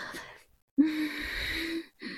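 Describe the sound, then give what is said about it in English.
Heavy, wheezing human breaths. A short raspy breath comes first, then a pause, then a long drawn breath with a whistling tone, then the start of another breath. “Have you missed my breaths, honey? Oh, I bet you have.”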